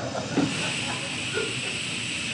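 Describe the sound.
A steam train stands at a station, giving off a steady, even hiss of escaping steam. The broad, continuous hiss stays level in loudness throughout.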